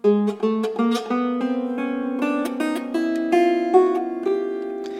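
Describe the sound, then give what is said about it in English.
Plucked strings, the twelve sympathetic strings of a bowed fiddle-like instrument, set into the bridge: a quick run of bright plucked notes whose tones ring on and overlap into a shimmering sustained wash. “And then there are 12 sympathetic strings, which sound like this.”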